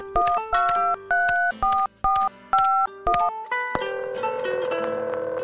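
Touch-tone keypad beeps as a telephone number is dialed, a quick series of short tones at changing pitches, then a longer sustained tone as the call connects.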